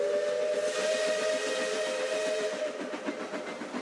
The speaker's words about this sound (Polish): W oddali słychać odgłosy wojny, stukot pociągu.